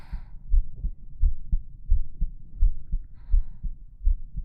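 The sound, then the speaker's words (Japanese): A pounding heartbeat: deep, muffled low thumps repeat in a steady, regular rhythm, a beat well under a second apart, alone without any talk. “自分でも聞こえるぐらいバクバク言ってんのに。”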